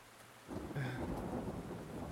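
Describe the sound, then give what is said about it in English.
Heavy rain sets in abruptly after a brief quiet and continues as a dense, steady hiss, with a low rumble of thunder beneath it. “This rain is getting Pretty heavy”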